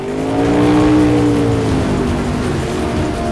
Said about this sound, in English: the boat speeds away to investigate